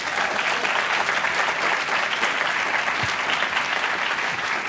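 An audience applauds to welcome an opera singer cast as the dwarf Alberich in a Ring cycle production. The clapping is a dense, even roar that holds at a steady loudness throughout, with no voices over it.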